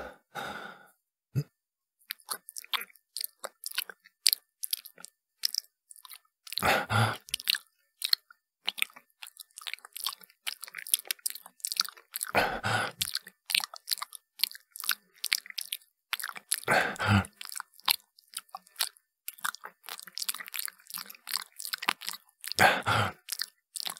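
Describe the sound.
Wet chewing and crunchy bites of something fresh being eaten, many close, moist mouth sounds interrupted by a few loud, breathy sighs.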